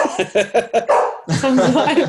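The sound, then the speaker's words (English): Dog barking: a quick run of a few short, sharp barks, then a brief gap and a longer, continuous vocal sound from the dog. “I apologise for my dog.”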